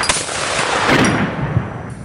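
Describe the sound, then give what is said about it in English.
Gunfire from the battle for the San Juan Hills: a dense, continuous rattle of shots that stays loud throughout, with a few sharper cracks standing out. “They could not remain where they are, for they were being shot to pieces.”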